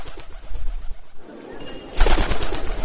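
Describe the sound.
A pigeon coos after landing nearby. Soft, low calls sit under steady rustling noise, which grows louder for the last second.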